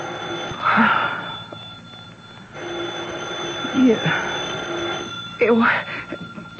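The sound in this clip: A telephone ringing with thin, steady tones over continuous background noise, while voices speak briefly over and between the rings.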